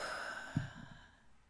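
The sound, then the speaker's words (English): A single deep breath exhaled through the mouth, a soft breathy rush that starts with a slight push and fades away over about a second. A faint, steady tone hums quietly behind it. “just take one more deep, deep breath in through your nose and out through your mouth”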